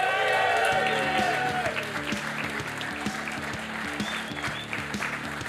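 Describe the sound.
A crowd applauds to welcome two guests on stage at a horse racing festival show. The clapping is loud and steady throughout, with a low repeating pulse underneath.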